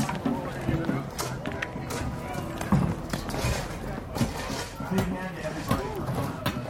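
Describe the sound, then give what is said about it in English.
A crowd tears up the asphalt of a parking lot: dense clattering, scraping and thudding of broken pavement chunks, with busy crowd voices talking throughout. “And that's the sound of parking lot being turned into a park.”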